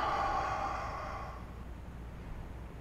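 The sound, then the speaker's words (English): A deep breath in and out during a yoga session comes as a soft, airy rush lasting just over a second, then fades into quiet low background. No one speaks. “and exhale. Inhale, and exhale.”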